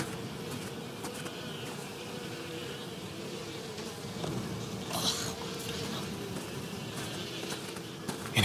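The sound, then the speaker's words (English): A swarm of black bugs buzzes over a little pool of congealed blood, a dense, steady drone of overlapping wingbeats that keeps going without a break and swells slightly toward the end. “Up ahead, there's a mess of black bugs.”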